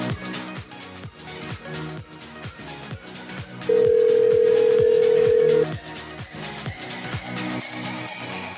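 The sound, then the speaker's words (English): An outgoing phone call rings back with a single steady tone lasting about two seconds. It sits over a steady, thumping rhythmic beat that plays throughout. “Come on, please. Answer the phone.”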